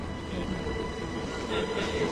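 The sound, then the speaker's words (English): A subway train runs through a tunnel, giving a steady, fairly faint low roar of wheels and rails that swells slightly toward the end, with no voices. “As Alex moves forward, the subway train emerges from a tunnel into bright daylight.”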